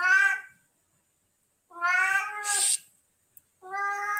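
A cat meows loudly a few times, separated by silent gaps, with drawn-out, plaintive calls and one faint click between them.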